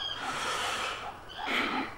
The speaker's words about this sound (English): Berger takes a deep breath. It's time to begin.